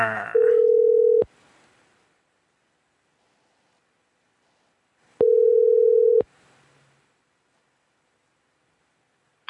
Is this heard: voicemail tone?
yes

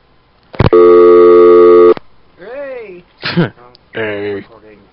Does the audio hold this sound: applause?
no

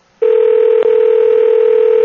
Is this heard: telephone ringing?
yes

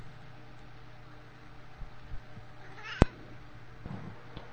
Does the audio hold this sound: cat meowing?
yes

